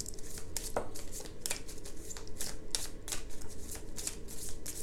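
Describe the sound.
A Lenormand deck is shuffled and handled, producing a quiet run of many crisp card riffles, snaps and papery flicks in quick, irregular succession.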